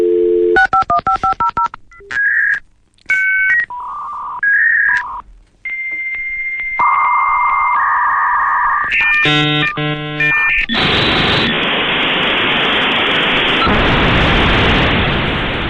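A dial-up modem connects to the internet: a quick run of dialing tones, then shifting beeps and warbling handshake tones, ending in loud, continuous hissing static.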